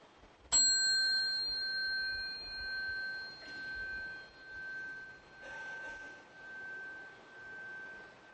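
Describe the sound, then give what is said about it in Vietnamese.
A Buddhist temple bell, rung to signal bowing, is struck once. Its bright, high ringing tone rises sharply and then slowly fades over several seconds, pulsing gently as it decays. “chúng ta xá theo cái tiếng chuông, chúng ta nghe tiếng khánh thì chúng ta lại xuống.”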